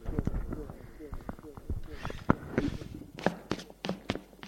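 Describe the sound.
Running footsteps in a French audio drama as a man runs toward a priest, a quick, irregular series of sharp thumps and taps of varying loudness, mixed with voices.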